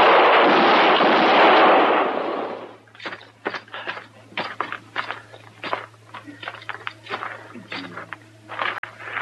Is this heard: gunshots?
yes